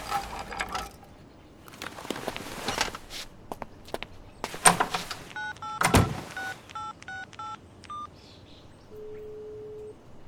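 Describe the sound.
Touch-tone beeps of a telephone being dialed to place a call: a quick run of short, bright paired tones follows clattering handling noises and footstep-like knocks, then a steady, lower single tone hums briefly near the end.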